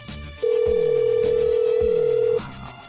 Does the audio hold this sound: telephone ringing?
yes